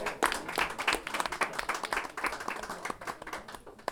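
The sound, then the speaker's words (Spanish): Audience applause at a live improvised-poetry and storytelling event: dense, irregular clapping from many hands runs through the whole stretch, holding fairly steady before easing slightly near the end. “Aplauso a Catalina.”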